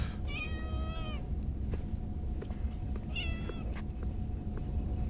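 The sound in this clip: A cat meows twice: a long, drawn-out meow followed a couple of seconds later by a shorter one, both clear over a steady low background hum.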